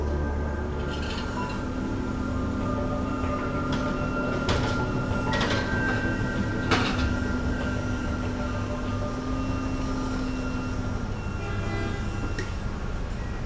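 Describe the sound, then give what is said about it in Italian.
Machinery drones steadily at a tunnel boring machine launch shaft on a metro construction site, a low hum with a sustained tonal whine and a few sharp metallic clanks, no speech. “Allora, in questo momento eh, noi siamo nell'area del pozzo TBM di Vittorio, cioè un pozzo di attacco per eh, la fresa che realizzerà la galleria che collegherà la stazione Capodichino”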